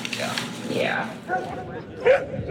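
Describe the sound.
A nervous, part-husky dog yelps and whimpers, startled by a hand moving too fast near it. The short, high cries come over a person talking, with a sharper yelp near the end.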